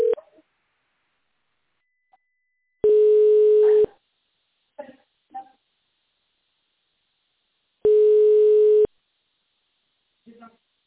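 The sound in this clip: Telephone line tones while a call is transferred: two loud, steady, low-pitched tones of about a second each, spaced several seconds apart, with a few brief faint clicks and noises in the quiet gaps between them.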